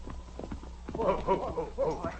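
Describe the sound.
Horse hooves clip-clop as riders set off, a quick, uneven series of hollow knocks at moderate loudness over a steady low background.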